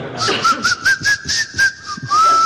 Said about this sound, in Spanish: Sí, y también sé silbar con los dientes.